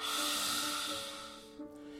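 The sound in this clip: A forceful lion's-breath yoga exhale with the tongue out: one long, breathy hiss that starts strong and fades over about a second, over a steady faint tonal hum.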